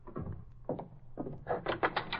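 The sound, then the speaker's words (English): A door is opened: a few dull thumps are followed by a quick run of sharper clicks, with no talk. “I'll open the door.”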